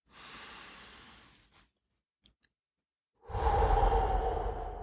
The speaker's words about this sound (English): So what I do 3 deep breaths, right? And I do them about 4 seconds apart. So it's like this.